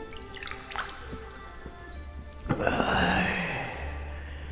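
Water drips from hands scooping it up from a stream: a few soft, faint drops, then a fuller splashing trickle.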